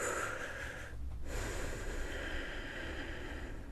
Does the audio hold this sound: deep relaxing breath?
yes